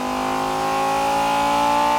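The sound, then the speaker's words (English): A car engine revs in gear toward the red line for a video game car recording, a loud steady harmonic drone that climbs slightly in pitch throughout. “Put the car in gear and drive it smoothly up to the red line.”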